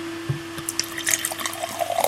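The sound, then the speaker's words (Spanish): Liquid is poured from an opened bottle into a glass, making faint, scattered drips and small splashes that thicken into a light trickle toward the end. A steady low hum runs underneath. “el sonido que hace el líquido al caer en un vaso, ¿no? Porque ¿de qué sirve una botella destapada si el líquido”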